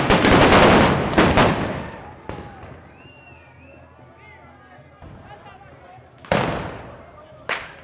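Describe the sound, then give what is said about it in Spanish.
A firing-squad volley of gunshots in a traditional Spanish re-enactment executing prisoners of war: a loud dense burst of shots at the start, then several separate sharp single shots spaced through the rest, with faint voices between. “Bueno, pues así es como se lleva el fusilamiento de todos los prisioneros de guerra a España. Los generales dando el tiro de gracia a todos los prisioneros de guerra.”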